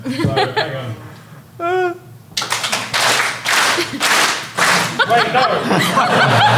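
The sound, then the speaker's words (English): An audience bursts into loud clapping mixed with laughter after a man's speech. The claps come in dense, uneven bursts that continue to the end. “So you all need to clap at the point when I break something over my knee.”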